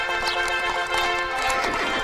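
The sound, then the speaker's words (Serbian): Hooves of trotting horses pulling a royal carriage, a brief continuous clatter over a sustained tonal layer. “Uz glasan kas konja pojave se kraljevske kočije.”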